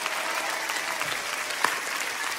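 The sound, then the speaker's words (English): Hand clapping merges into steady crowd applause, a soft, dense patter of many hands that holds an even level throughout, with one slightly sharper clap near the middle. “You know why I'm clapping?”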